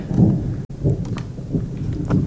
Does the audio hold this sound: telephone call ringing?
no